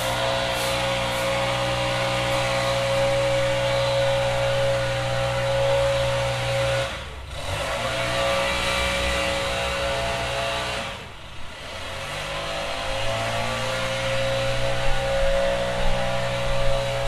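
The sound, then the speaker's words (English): A neighbour's leaf blower drones steadily across the street in the morning, a loud, continuous engine roar with a high whine. It dips briefly twice, then returns at full strength. “Anyhow, this is what you begin to hear. Take it away.”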